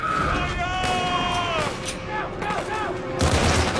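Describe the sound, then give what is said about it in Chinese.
Video-game gunfire as soldiers shoot at monsters: dense, continuous rattling bursts with sustained tonal sounds layered over them. The firing grows louder near the end. “怪物这边被打中后，前仆后继的冲过来，中尉这边拼命的开火，也相互照应着，避免被怪物近身攻击。”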